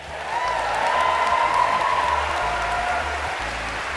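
Audience applause welcoming a Nobel laureate guest onto a stage show: dense, steady clapping from many hands that swells in the first second, holds loud, then eases slightly toward the end.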